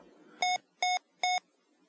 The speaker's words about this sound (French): Trois bips ou vibrations courtes indiquent le 20$.